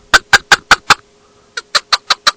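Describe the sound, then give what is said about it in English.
Sharp, rhythmic clucking notes from a hand-blown chukar game call: a run of five evenly spaced chuks, a brief pause, then another quick run. The notes sound bright and clear, with no voices. “Is that a duck call? No, it's chicken. Actually, it's a chucker call for chuckers.”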